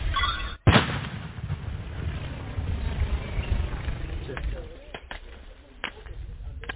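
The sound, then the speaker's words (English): Controlled detonation of unexploded cluster ammunition, triggered by a button from roughly 200 meters away under a tree. One sharp, loud blast is followed by a long low rumble that slowly fades, then a few faint clicks. “from here, they're going to press this button to explode the bomb safely. Fire!”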